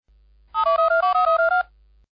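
Electronic ringing on an outgoing telephone call: a rapid run of short tones alternating between two pitches, lasting about a second, over a steady low hum.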